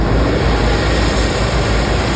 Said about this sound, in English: Engines starting up this morning as crews headed into the third day of aerial operations at Slieve na Mann.